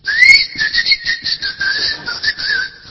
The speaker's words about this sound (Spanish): el llavero emite un sonido ante su silbido